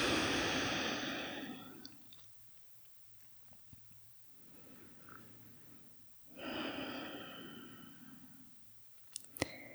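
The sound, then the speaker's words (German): Slow, deep breathing in and out during a guided relaxation exercise: long, soft, airy rushes of breath separated by a quieter stretch, with no talking and a few faint clicks near the end. “Und atme tief ein und aus.”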